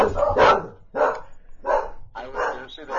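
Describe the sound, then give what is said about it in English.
Dogs bark repeatedly, several sharp, mid-pitched barks spaced roughly half a second to a second apart, loud and alone. “So apparently, the dogs either really like that or they hate that.”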